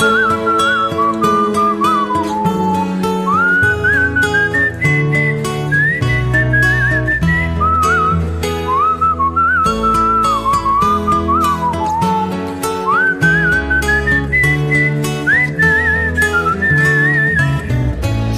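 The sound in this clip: A person whistles a song, a nearly forgotten tune, as a clear, high, wavering melody of sliding and held notes. It plays continuously over a dense, steady backing.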